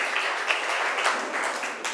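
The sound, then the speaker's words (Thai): Students in a classroom clap for a group of classmates about to present, a fairly soft, continuous rattle of many hands. “ปรบมือให้กลุ่มที่สามหน่อย”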